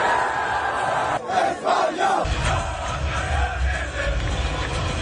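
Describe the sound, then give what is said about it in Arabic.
A football crowd roars as fans celebrate with the players after a final, a dense, loud wall of cheering and shouted chants that briefly dips and swells near the middle before settling into a steady roar. “فرحة الجمهور مع اللاعبين وملك إسبانيا الذي تواجد بالمباراة.”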